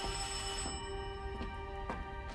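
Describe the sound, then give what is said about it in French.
A telephone rings with a steady, bright tonal ring and a few faint clicks at intervals. “Qui peut bien appeler sitôt? Allô?”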